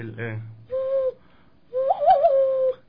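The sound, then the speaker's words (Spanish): Whistling made with the hand: two hollow, fairly low tonal whistles, the second longer with a wavering warble, after a brief vocal sound at the start. “Este sonido es más como un tipo silbido.”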